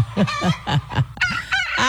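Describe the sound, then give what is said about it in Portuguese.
Hens cluck in a quick, steady rhythm, a run of short throaty calls following one another at an even pace. “se você não acordou com o galo, com a galinha”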